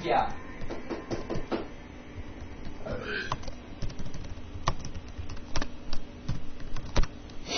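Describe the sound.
Keystrokes on a computer keyboard while searching Google, an irregular clatter of sharp clicks and taps with a few brief vocal murmurs in between.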